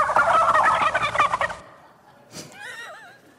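A turkey gobble rings out in a stadium for a university mascot: one loud, rattling burst lasting about a second and a half, then fainter warbling, whistle-like tones near the end.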